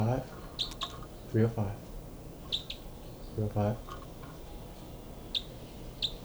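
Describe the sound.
Birds call loudly in response: short, high chirps recur through the stretch, joined by a couple of louder, lower harmonic calls, all over a steady bed of background noise.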